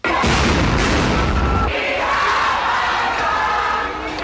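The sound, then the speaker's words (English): Stun grenades explode as police disperse student protesters who breached the gates of parliament during a fees protest, a few loud booming blasts over a continuous roaring, shouting crowd. “fired stun grenades to disperse the students.”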